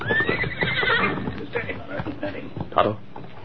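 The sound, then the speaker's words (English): Hoofbeats of Tonto's paint horse Scout clip-clop in a steady series of soft hoof strikes. A whinny sounds near the start. “he heard hoofbeats approaching. He recognized them as those of Tonto's paint horse scout.”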